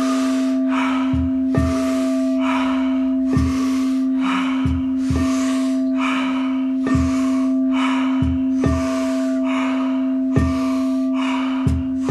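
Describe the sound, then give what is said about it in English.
Deep breaths drawn in through the belly and lungs, repeated in many regular, airy bursts over a steady sustained tone. “So go ahead and synchronize in. Really pull that breath in deep, deep into the belly, deep into the lungs.”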